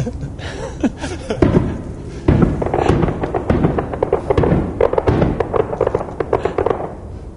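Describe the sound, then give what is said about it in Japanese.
Mickey Mouse fireworks explode at Disney in a loud, dense barrage of booms and crackling bursts that continue steadily throughout, with sharp thuds standing out from the rolling roar. “あミッキー花火が上がりました。今 ミッキー花火上がりました”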